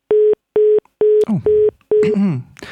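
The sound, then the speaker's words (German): A telephone busy tone follows a dropped phone call: five short, steady mid-pitched beeps pulse in an even, quick rhythm, with bursts of garbled line noise breaking in over the later beeps. “Da ist der Anruf plötzlich weg. Ich versuche gleich nochmal.”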